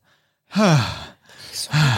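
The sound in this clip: Heavy human breathing, panicked after a struggle. Two loud, voiced exhalations, each like a sigh with a falling tone, are separated by a softer, rasping breath.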